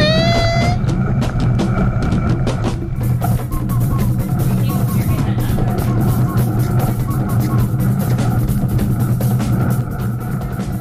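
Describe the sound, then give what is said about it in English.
Car tires roll on the road in a loud, steady roar that holds evenly from start to finish, with a deep low rumble beneath it. “You could hear the tires.”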